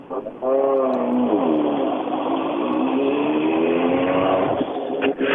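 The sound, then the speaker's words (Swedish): A racing car's engine sounds as it reaches the finish of a race. Its loud, buzzing harmonic note shifts in pitch early on, then holds as a sustained roar for several seconds. “Ja, här har vi Stugemo kommit fram. Jag har svårt att inte tycka om utseendet på den här bilen i alla fall.”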